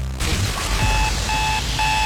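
An alarm clock rings with a steady, high electronic beep that repeats several times in short, evenly spaced pulses over a loud, dense background.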